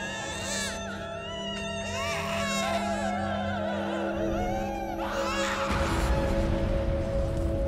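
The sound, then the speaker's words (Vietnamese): Shrill crying of children outside a graveyard: continuous, wavering high-pitched wails that carry steadily through the whole stretch. “loáng thoáng ở bên ngoài nghĩa địa, có tiếng trẻ con khóc choe choé”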